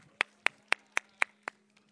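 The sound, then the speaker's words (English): Crisp hand claps from an audience at an elementary school graduation, six sharp beats in an even, steady rhythm followed by a faint last one, over a low, constant hum. “And can you give yourself a hand clap tonight?”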